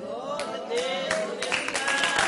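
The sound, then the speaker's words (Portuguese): A church audience claps, with several sharp claps at an uneven pace over sustained voices. “Olha as palmas aí, como é que está.”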